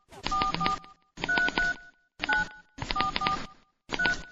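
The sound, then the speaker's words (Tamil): Touch-tone keypad beeps from a phone as a number is dialed, with many short tones falling into five quick bursts separated by brief pauses, fairly loud and without talk. “கொஞ்சம் இரு, நான் phone பண்றேன்.”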